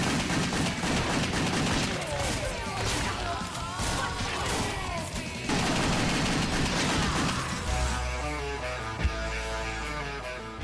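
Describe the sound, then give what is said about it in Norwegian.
Rapid dual-pistol gunfire from an action video game, with many loud shots blurring into a dense, continuous barrage that runs through the whole clip. “De jeg imidlertid brukte mest, var de to pistolene hennes, selvfølgelig én i hver hånd”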